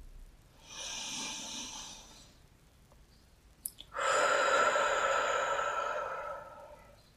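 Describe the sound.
Slow breathing: a soft, airy inhale lasting over a second, a pause with a couple of small clicks, then a longer, louder, rushing exhale that gradually fades.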